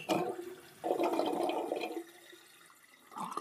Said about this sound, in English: I'm using all these watery sounds that are likely reminding you that you have a bladder and that it does, in fact, contain liquids.